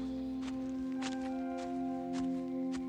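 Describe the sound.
Soft footsteps walk out of a barn that holds cows and sheep. A steady series of faint, evenly spaced steps sounds over a sustained low drone.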